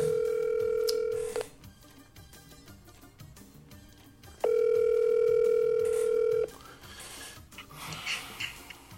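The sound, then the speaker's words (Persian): A telephone tone sounds while a call is placed: two long, steady beeps separated by a quiet gap, over faint background noise. “اگه اوکی یه زنگ بزن ببین حالش در چه حاله”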